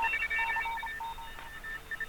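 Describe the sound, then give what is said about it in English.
Faint telemetry signal tones: a quiet, steady stream of short electronic beeps that hop among a few pitches in an irregular, data-like pattern. They continue throughout, with no voices. “what the hell are we listening to? Sounds like some kind of telemetry.”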